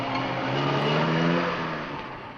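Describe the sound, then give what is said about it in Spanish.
A car drives away: a steady engine hum with clear harmonic tones that swells, then gradually fades toward the end. “se aleja conduciendo el coche.”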